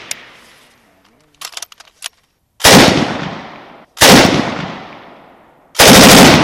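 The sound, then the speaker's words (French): Automatic weapons firing at a shooting range: three loud, sustained bursts of rapid shots, the last cut short, preceded by a few faint mechanical clicks and snaps. “le champ de tir où même les journalistes peuvent tester toute la gamme d'armes automatiques.”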